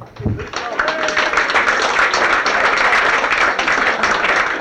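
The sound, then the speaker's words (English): Loud crowd applause at a stag night show as the compere is welcomed onto the floor. The clapping is dense and sustained and stays at full level throughout. “I would like you, before we start, to put your hands together and welcome out on the floor your compere for tonight, Mr. John Cassidy.”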